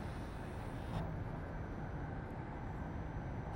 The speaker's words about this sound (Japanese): Ladies and gentlemen, welcome on board the 上越新幹線. This is a MAX Tanigawa Super Express bound for Tokyo